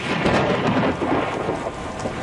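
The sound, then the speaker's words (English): Heavy rain pours down steadily, with thunder rumbling through it, while people shelter indoors from a storm that is flooding the roads. A dense, continuous roar holds an even loudness throughout, and no one speaks. “we're just going to shelter inside for a moment because the rain is coming down. You can probably hear the thunder in the background”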